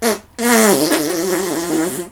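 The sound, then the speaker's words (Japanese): A loud, cartoonish fart sound effect: a short blast, a brief gap, then a long buzzy blast whose pitch wavers and slowly sags before it cuts off. “おならですぐにあんたなんか吹き飛ばしてあげるわ。 さすがに爆風で匂いもすごいわね。”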